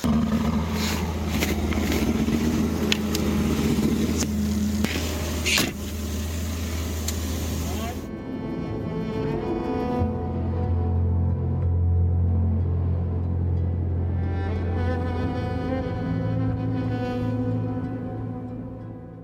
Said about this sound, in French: Piste and Bully Scout. C'est un tout petit véhicule qui va nous permettre d'aller euh, de piquet en piquet sur tout le site et de transporter le matériel surtout en fait.